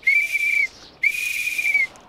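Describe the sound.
A hand whistle is blown twice in fog: two shrill, steady high-pitched blasts, the second a little longer, with a brief silence between them.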